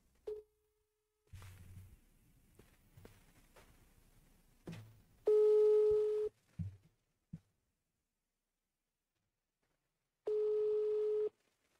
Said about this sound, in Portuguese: Ah, vou ligar pro Kim, vamos lá. É que ele não vai atender, como sempre, com a grosseria dele, né? Vamos lá, vamos ver se ele atende.